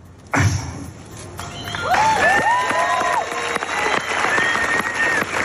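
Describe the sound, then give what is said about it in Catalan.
Audience applause and cheering at a tribute concert honouring Joan Roca. It bursts in abruptly just after the start and holds as a dense, sustained roar of clapping, with whistle-like tones rising and falling through it. “de Bon no va poder evitar emocionar-se i el públic va mirar d'animar-lo, d'esperonar-lo. Aquest era el moment.”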